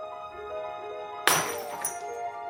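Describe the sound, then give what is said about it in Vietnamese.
Glasses fall and shatter on a cold floor in one sudden bright crash with a scatter of tinkling fragments afterwards, breaking through soft, melodic music that plays throughout. “Tiếng ly tách rơi dở trên nền nhà lạnh tanh, hòa quyện với tiếng nhạc du dương của bài hát mà Chi Hằng yêu thích.”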